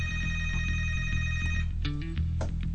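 A telephone rings loudly as a caller phones in to a television call-in line. The electronic ringing is continuous, with a steady high tone that cuts out partway through over a pulsing low hum.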